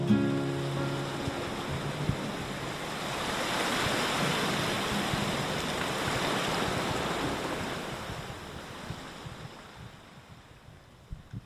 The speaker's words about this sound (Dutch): En u hoort het misschien op de achtergrond, het water van de Schelde.